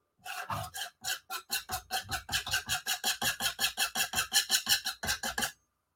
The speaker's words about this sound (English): that really is more like ink wash. And then maybe some scraping.